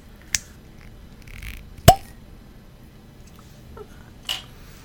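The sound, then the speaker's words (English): A whiskey bottle's cork is pulled open with one sharp pop in the middle, set among a few fainter clicks and taps in an otherwise quiet clip with no talk. “I will crack open that cork.”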